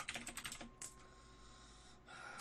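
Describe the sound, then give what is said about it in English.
Typing on a computer keyboard: a quick run of faint, dense key clicks at the start, then a single tap and a soft steady hiss, all quiet and with no voices. “I can hear you type.”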